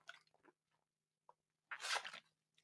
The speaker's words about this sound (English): Need some of this seltzer water.